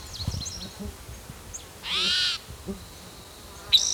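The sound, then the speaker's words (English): A male bird calls with a single rasping, buzzy high note lasting about half a second, followed near the end by a short sharp high note. A few faint chirps come earlier over a low, quiet background. “Bird that's calling, I think it's a different male.”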